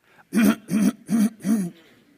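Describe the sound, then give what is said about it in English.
People clearing their throats at a Passover seder, just before a prayer recited together: four rasping, throaty bursts in an even rhythm, each fairly loud, then a faint tail. “You need to get ready. Clear your throat.”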